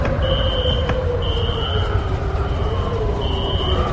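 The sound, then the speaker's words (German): Alarm sounding in three long, high-pitched electronic tones separated by pauses, the last gap longer, over a steady low rumble. “Alarm 1.”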